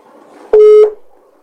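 A single short electronic beep sounds on a phone line as the call cuts off. It is a steady, fairly loud tone lasting about a third of a second, over faint line hiss.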